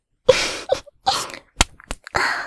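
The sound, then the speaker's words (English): Someone munches a raw carrot, producing a series of sharp, crisp crunching bites separated by short pauses, loud and close with no talk. “Munching on a carrot like this.”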